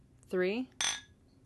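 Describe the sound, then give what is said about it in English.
Glasses clinked together on a count: a single bright, ringing clink that rises sharply and fades within a fraction of a second. “will you clink with me?”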